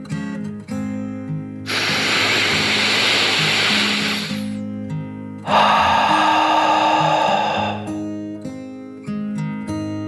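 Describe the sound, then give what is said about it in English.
A deep, slow breath in and then out, heard as two long, steady breathy rushes of a few seconds each, separated by a short pause, over soft sustained background music. “So Jeffrey decided to take a deep dragon breath, in and out.”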